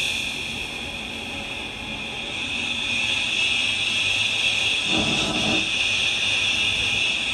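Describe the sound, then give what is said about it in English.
A 'ch' consonant taken from the word 'touch' and time-stretched into a long, continuous hiss that sounds like wind. It is bright and noisy throughout, with a slight swell in level partway through. “So that's ch extended over a long period of time. Yeah, and you hear how it sounds. It starts to sound a little bit like wind.”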